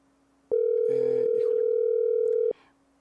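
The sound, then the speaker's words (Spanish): A telephone dial tone sounds while a call is being placed over a shaky connection. One steady, mid-pitched tone starts abruptly, holds for about two seconds and cuts off sharply, with faint brief sounds around it. “Seguimos teniendo algunos pequeñitos problemas con la conexión. Esperamos que Pedro nos tome la llamada en un momento.”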